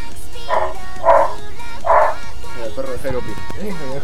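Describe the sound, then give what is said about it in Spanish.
A dog gives three short barks, spaced roughly half a second apart. People then talk over a low background. “Mira, el perro de Jairo opina.”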